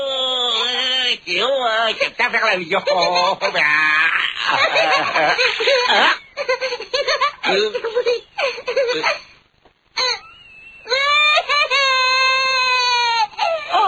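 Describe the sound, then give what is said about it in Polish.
A baby cries aboard an airplane, needing a wet diaper changed, in loud wailing bursts with bending, warbling pitch and a few brief breaks, including a near-silent gap around the tenth second. “Nie płacz, kochanie, zmienimy pieluszkę.”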